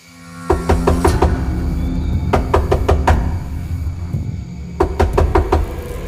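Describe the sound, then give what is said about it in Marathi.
Knocking on a door at 1:30, heard as three separate bursts of rapid, sharp raps with pauses between them, over a steady low hum. “बरोबर 1:30 वाजता दरवाजा वाजला.”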